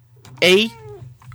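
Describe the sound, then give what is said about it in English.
A cat meows once, a short, bright, mid-pitched call that tails off, heard alone over a steady low hum. “That was my cat.”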